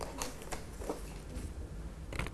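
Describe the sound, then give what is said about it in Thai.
Colored paper is taken out of a basket during a children's craft demonstration, making a few faint, soft rustles and light taps spread across a quiet background. “จากนั้นนะคะเราก็จะหยิบกระดาษสีออกมาค่ะลูก”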